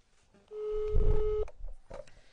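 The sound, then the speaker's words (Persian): A telephone number being dialed, a steady electronic tone holding for about a second over a low rumble, followed by fainter brief sounds. “من الان شماره شون رو میگیرم که با شما سلام علیک بکنن”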